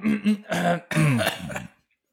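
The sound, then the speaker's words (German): Throat clearing: a few rough, voiced rasping bursts, two short ones and then two longer, the last the longest and loudest, with no other sound around them. “Jetzt muss ich mich nochmal räuspern.”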